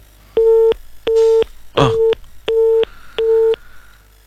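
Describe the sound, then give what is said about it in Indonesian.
Telephone busy tone after a dropped phone call: five evenly spaced, steady-pitched beeps with short gaps, and a brief burst of noise over the third beep. “Ya, nampaknya kami terputus dengan Pak Setio. Kami akan coba menghubungi kembali.”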